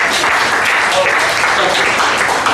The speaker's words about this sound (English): Clap your hands if you're in a relationship. I want to know if you're clapping.